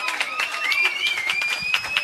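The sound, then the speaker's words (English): A round of applause for a high school softball pitcher: quick, fairly rhythmic claps with a high sustained tonal voice riding over them. “How about a round of applause for Jillian here?”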